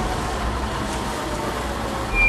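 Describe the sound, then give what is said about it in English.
A motor runs steadily, a continuous low rumbling drone at an even level, with a brief bump in loudness at the very end. “Turn off the motor.”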